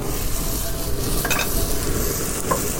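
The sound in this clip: Saltimbocca alla Romana laid into a very hot frying pan, giving a loud, steady sizzle and hiss of frying meat that continues without a break, with a couple of faint metallic clinks on top and no talk.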